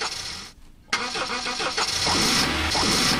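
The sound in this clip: A car engine starts after being repaired: a brief quiet gap, then a sharp catch into a steady, loud, rough rumble that keeps running.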